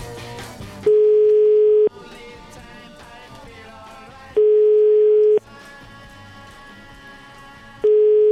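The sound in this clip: Telephone line tone while a number is dialed: a steady low beep sounds three times, each lasting about a second and separated by longer pauses, with other sound continuing underneath.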